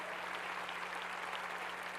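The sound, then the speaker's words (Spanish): Faint applause from a church audience, an even, continuous patter of clapping that stays low and steady throughout. “Dale un aplauso a la palabra del Señor.”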